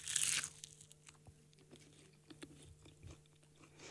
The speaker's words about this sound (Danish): Den kommer i sådan en fin lille, jeg vil sige konvolut-agtig, hvor der står McToast på. Og jeg har simpelthen valgt det med bacon, så jeg håber, der er lidt crunch til det.